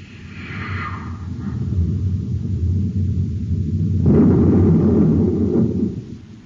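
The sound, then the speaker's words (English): A deep rumbling blast from a space torpedo fired at a ship and striking in a direct hit; the low roar swells over a few seconds, then surges into a louder, harsher burst before fading. “Stand by to fire space torpedo.”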